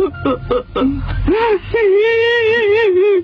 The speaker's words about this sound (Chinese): 你干嘛要哭啊？